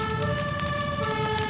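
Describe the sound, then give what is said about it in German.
A fire engine siren rings out, from a fire engine driving through heavy snow, its steady held tones sounding loud and unbroken through the whole short stretch with no voices. “Was? Mit einem Feuerwehrauto? Ah, weil man anders durch die Schneemassen nicht durchkommt.”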